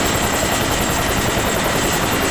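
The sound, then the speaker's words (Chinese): An aircraft takes off with a steady, loud, dense engine roar carrying a rapid rotor-like beating throughout, alone with no voices. “关门。起飞了。”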